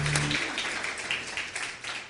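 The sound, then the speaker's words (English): Church audience applauding to welcome a guest speaker onto the stage, a continuous wash of clapping at a steady, fairly loud level, with a brief low hum at the very start. “So do me a favor, start putting your hands together right now, and welcome Dr. Dan Grider.”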